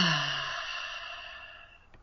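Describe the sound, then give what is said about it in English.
A deep exhale during a breathwork exercise for core strength: one long, steady breathy sigh, fairly loud at the start and tapering off gradually over two seconds. “Deep, strong, powerful inhales. And then let everything go as you breathe out.”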